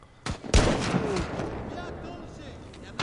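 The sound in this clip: Gunfire in a video game: a sharp, loud blast, preceded by a smaller shot and followed by a rumbling decay that slowly fades, with another shot at the very end.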